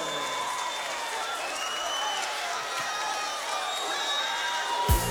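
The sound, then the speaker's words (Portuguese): An audience applauding: dense, steady clapping mixed with cheering that fills the whole stretch at an even loudness. “Bora aplaudir!”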